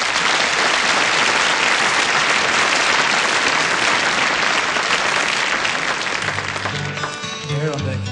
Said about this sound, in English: Give them a big hand. Come on.